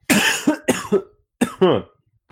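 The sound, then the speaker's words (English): Harsh, throaty coughing after a breath went down the wrong way: several forceful, partly voiced coughs in a quick cluster, then a short gap and a faint final catch. “Oh, excuse me. I breathed wrong. The breath went down the wrong hole.”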